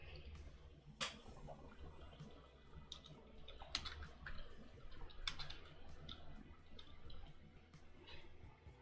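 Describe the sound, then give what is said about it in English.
Typing on a computer keyboard: faint, irregular key clicks scattered across the stretch, soft and quiet with a low background hum. “Good, we type.”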